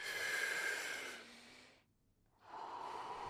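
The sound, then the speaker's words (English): Deep breathing drawing in through the belly and chest: one long, airy breath that slowly fades, a brief silent pause, then another breath begins. No talking. “So use your belly and use your chest to inhale fully.”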